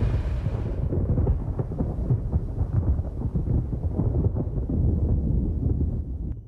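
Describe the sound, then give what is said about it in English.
Thunder of a brewing storm over a long, open road: a continuous low, crackling rumble that holds steady for several seconds and eases slightly at the end. “A storm is brewing.”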